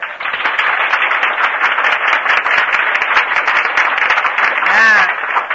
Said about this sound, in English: never mind the hand clapping. Let's leave that off. These girls can't live on applause.